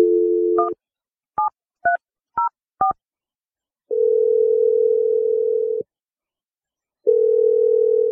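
Telephone ringing tone after a number is dialed: a steady dial tone, then a few quick keypad beeps, followed by two long, even, low-pitched rings separated by silence, with no voices.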